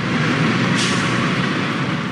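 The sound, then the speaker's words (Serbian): A bus carrying about 80 refugees stops near a border crossing, with a steady, loud rumble of engine and road noise and a brief brighter hiss early on. No one talks. “Autobus sa oko 80 izbeglih iz država Bliskog istoka zaustavlja se na oko 4 km od graničnog prelaza Horgoš.”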